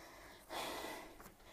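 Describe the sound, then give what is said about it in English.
A person breathing in: one soft, airy inhale, a broad breathy hiss that swells quickly and fades over under a second, faint and heard alone without talk. “Okay, let me breathe in a little bit.”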